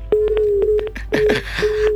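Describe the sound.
A telephone call cutting off: a steady low line tone breaks apart into several sharp clicks and garbled bursts before it resumes briefly.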